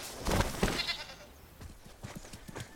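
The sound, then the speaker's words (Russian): A goat, caught by the horns, bleats in a couple of loud, strained, wavering cries, followed by softer, rapid, uneven sounds. “поймал козу за рога”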